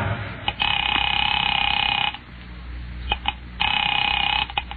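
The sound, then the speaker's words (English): A telephone rings on the other end after a number is dialed from a hospital: two long, buzzing ring bursts separated by a pause, the second cut off at the end, with faint clicks in between. “Picking it up quietly, I dialed my daughter's number, Alec Bartlett's wife.”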